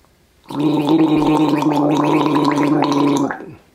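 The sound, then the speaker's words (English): Water is gargled in the throat, giving a loud, continuous bubbling rattle that holds steady for about three seconds and then stops. No one speaks over it. “A good way that you can get into understanding how you can create that sound is by gargling some water, like this.”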